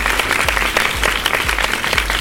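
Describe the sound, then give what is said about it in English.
A round of applause from an audience, with steady, dense clapping holding at an even level from start to finish. “a round of applause to you for getting all 4 correct answers”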